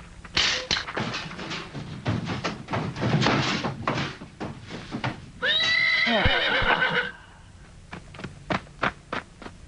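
A horse neighing in a movie scene: a loud whinny with a falling pitch, set among many thuds, knocks and clip-clop hoofbeats before and after.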